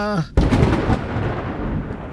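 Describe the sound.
A floor-shaking thunder clap follows a flash of lightning: a sudden loud, broad crack gives way to a heavy rumble that keeps going to the end.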